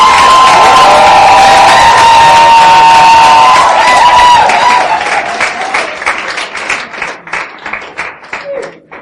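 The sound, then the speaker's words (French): A church audience cheers and shouts for joy, a loud, sustained roar of voices and clapping that thins out into scattered claps toward the end. “Est-ce qu'on peut acclamer, pousser un cri de joie?”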